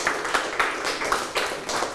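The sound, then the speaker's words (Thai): A classroom of students claps for a classmate who answered correctly, the clapping coming in regular rhythmic bursts at a moderate, fairly quiet level. “ปรบมือให้เพื่อนถูกต้องเลยครับ”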